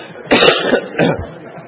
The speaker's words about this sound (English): when I start coughing